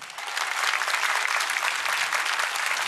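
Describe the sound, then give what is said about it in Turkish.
Studio audience applause during a televised folk music programme: dense, loud clapping that starts slightly softer, then holds steady and unbroken for about three seconds with no voices over it. “Öyleyse alkışlarınız devam etsin.”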